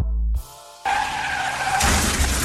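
A car skidding in an accident sound effect: after a short gap, a loud tire squeal with a whining tone sets in, then turns into a broader, harsher rush of noise toward the end.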